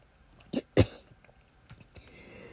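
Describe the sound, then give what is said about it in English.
Two short, sharp coughs come close together as someone chokes on something that went down the wrong pipe, followed by faint, quieter throat noises. “excuse me, went down the wrong pipe”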